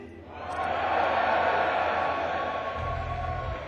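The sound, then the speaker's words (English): An audience at a stage show making loud noise: a dense crowd roar of shouting and cheering swells up within the first half-second and holds steady and loud to the end. “it happens that when the audience makes a lot of noise like this,”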